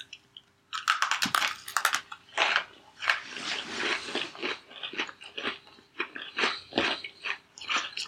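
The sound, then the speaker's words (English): Oreo cookies are bitten and chewed in a long run of crisp, irregular crunches that come in short bursts with brief pauses, fairly loud and with no talk. “Our next category is the one you've all been clamoring for, probably taste. So let's eat some Oreos.”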